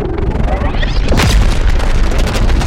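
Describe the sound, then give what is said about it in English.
A plasma gun fires a bolt in a video game: a loud booming burst with a hissing, crackling tail just past the midpoint, set against a dense, noisy rumble that continues throughout. “But a big old bolt of plasma just comes out.”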